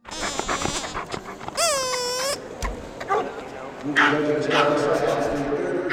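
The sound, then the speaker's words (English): Dogs at an annual kennel club dog show give a high, wavering whine or howl among a few short barks and yelps, with people talking in the background. “We sent KALW's Seth Samuel to the annual Golden Gate Kennel Club dog show to bring us the answer.”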